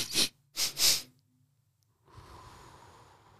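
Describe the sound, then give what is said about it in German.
Quick sniffing breaths drawn in through the nose, three short bursts in fast succession during a breathing exercise, followed after a pause by a softer, steady airy hiss. “Zweimal kurz durch die Nase einatmen.”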